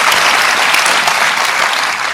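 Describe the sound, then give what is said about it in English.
An audience at a televised town hall applauds with loud, dense, continuous clapping that holds steady throughout. “Applauding this, folks.”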